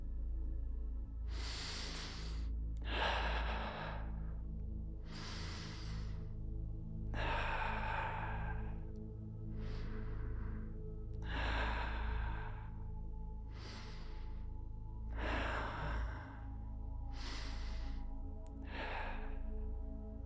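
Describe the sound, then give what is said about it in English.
Deep breaths are taken during a guided energy exercise, a slow series of long, airy inhales and exhales, many in all, over a steady low hum. “let's take 5 deep breaths together and expand that energy.”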